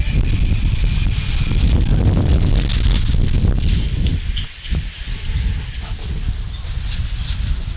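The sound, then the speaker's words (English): Gusty night wind blows outdoors near water in Merrick as a loud, continuous low rumble of buffeting on the microphone, with a brief lull midway before it picks up again. “At least it's a cool breeze tonight, right? Absolutely. It's always windy here in Merrick, but it's been a little much tonight.”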